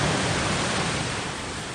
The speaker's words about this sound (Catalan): l'àudio de com baixava l'aigua, així se sentia.